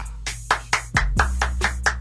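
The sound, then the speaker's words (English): A small group claps for themselves in a radio studio, about eight sharp claps in an even, quick rhythm, each one crisp and distinct. “we're going to clap for ourselves. That's right.”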